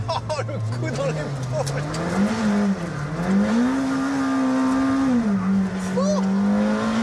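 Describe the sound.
An 800-horsepower race car weighing 1200 kg, with 800 Nm of torque, accelerating hard at high speed. Its steady, buzzing engine note climbs, dips and climbs again under a man's excited talk.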